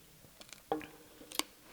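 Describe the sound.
Sandy edible earth crunches between the teeth while chewing: faint, gritty crackles with a few sharper crunches and no talk.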